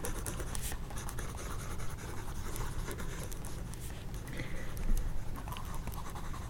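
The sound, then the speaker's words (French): Handwriting on paper makes soft, continuous scratchy strokes of pen or pencil, faint and papery, with small bursts of friction and no voices. “un autre geste qu'on a capté et qui était très drôle à capter, plus précis, c'est écrire.”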